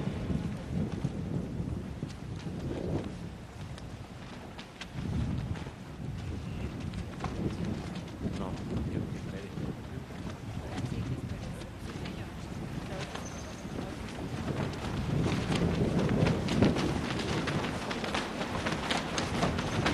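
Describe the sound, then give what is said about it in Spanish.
Wind beating against large flags during a solemn session of Colombia's Congress, a constant rough rushing with many irregular flapping snaps and buffets running through all twenty seconds. “Estás escuchando es parte del sonido del viento que da en las banderas, las grandes banderas que están cruzando.”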